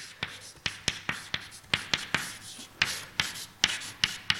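Writing on a board during a maths lecture: many quiet, crisp taps and short strokes in an irregular rhythm, heard alone with no talking.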